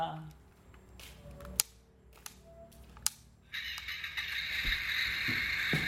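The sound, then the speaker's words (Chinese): A toy ambulance plays an electronic car-engine starting sound after a few sharp button clicks. The noisy, buzzing effect starts abruptly and carries on loudly to the end. “哦，这个是车发动的声音啊。 这个声音的。”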